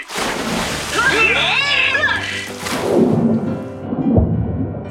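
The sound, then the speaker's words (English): Splashing, rushing water as divers wearing masks plunge underwater, a continuous churning wash lasting several seconds with swooping voices over it. “Here, these special masks will help us communicate underwater. Ready? Let's dive.”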